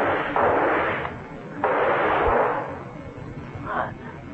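Gunshots in a radio drama, fired at a leech clinging to a man. A few booming bursts each fade in a long, noisy tail over a low rumble.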